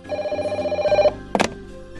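A telephone rings with a rapid, warbling electronic trill for about a second, then stops; a short, sharp clatter follows, and a low hum continues after it.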